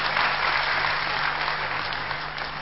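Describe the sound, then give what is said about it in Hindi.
Steady applause from an audience welcoming the panelists at a question-and-answer panel discussion, a dense, even clapping that holds at full strength for the whole stretch with no voices over it. “Panelist का हम सभी करतल ध्वनि से स्वागत करते हैं।”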